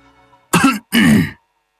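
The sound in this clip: A man clears his throat with a harsh, gravelly cough in two close, loud bursts, the second slightly longer, then falls silent.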